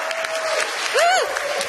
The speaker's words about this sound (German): Kann man mal Applaus machen?